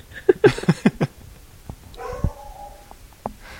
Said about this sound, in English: I have to apologize for my dog. I'm sure he's coming through on the microphones.